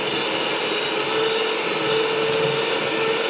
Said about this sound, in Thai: นี่ขนาดทำเนี่ยนิดเดียวนะคะจะเห็นว่ายังปั่นยากเลยนะคะเพราะว่าเนื้อมันจะมีความข้นแล้วก็